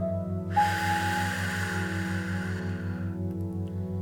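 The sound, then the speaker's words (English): A long, strong breath from a guided relaxation breathing exercise, heard as a steady airy rush lasting nearly three seconds. It sits over a soft sustained drone and a gently pulsing low tone, with no talk. “So nice, strong, deep breath in. Hold it. And then a nice, strong exhale, noticing the release.”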